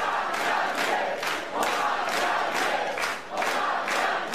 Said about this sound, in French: Voilà les supporters de Jean-Luc Mélenchon qui scandent « On a gagné ».